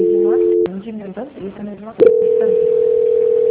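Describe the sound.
Telephone line tones sound while a call is being transferred: a steady buzzing tone, then a stretch with a voice, then a long unbroken single tone that holds to the end.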